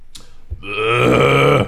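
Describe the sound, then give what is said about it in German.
A loud, drawn-out burp from a person, deep and tonal, lasting about a second after a brief throat sound at the start. “ich muss die ganze Zeit aufstoßen”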